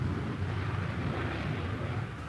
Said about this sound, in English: From the roof of the control tower, the Prime Minister watched Phantoms take off on one of their regular patrols around the island.